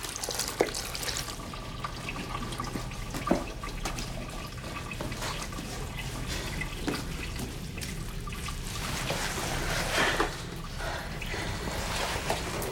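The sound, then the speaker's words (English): Water sloshes and trickles in a washroom sink as a nightdress is soaked, a steady low wash with a few louder splashes along the way. “Crispina soaks her nightdress in the sink and puts it on over her knickers.”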